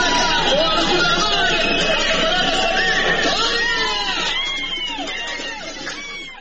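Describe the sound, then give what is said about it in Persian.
A crowd of protesters marching in the evening in Qorveh, Iran, with many overlapping raised voices shouting together, loud and dense at first, then fading somewhat toward the end. “شامگاه جمعه 11 آذر در قروه دست به راهپیمایی زدن مردم این شهر، بد نیست به این گوش بدیم.”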